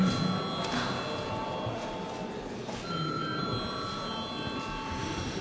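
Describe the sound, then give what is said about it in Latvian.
An electric voting bell rings in a parliament chamber, sounding a continuous, steady metallic ring with bright overtones. It holds at an even loudness for the whole stretch, without pauses or breaks. “lūdzu zvanu”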